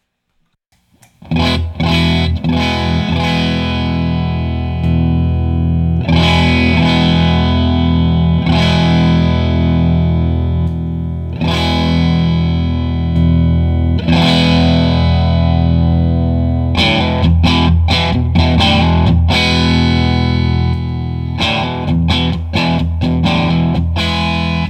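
Distorted electric guitar through a fuzz pedal with a silicon transistor. Loud, thick chords are struck and left to ring and decay, then faster, choppy strums crowd together toward the end.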